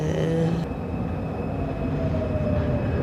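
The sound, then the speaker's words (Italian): A metro train rumbles through a busy Milan subway station, a loud, steady mechanical roar and rattle that fills the whole clip without letup and without voices. “I mezzi di trasporto, a partire dalle fermate più affollate della metropolitana, come questa di Milano”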